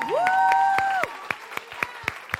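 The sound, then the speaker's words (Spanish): Applause at a church service with sharp claps in a steady, evenly spaced rhythm, joined by a held tone during the first second. “A ver, ¿a quién le damos el aplauso?”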